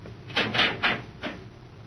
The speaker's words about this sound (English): All right. Open the outer hatch.